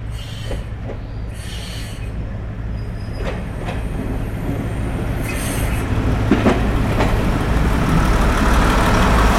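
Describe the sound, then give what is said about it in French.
A herbicide train rumbles steadily at Canfranc international station, a continuous low rolling noise with faint wheel squeals and occasional clicks that grows slightly louder toward the end. “Et une activité intense ce matin à la gare internationale de Canfranc. Si, a venu un train herbicida.”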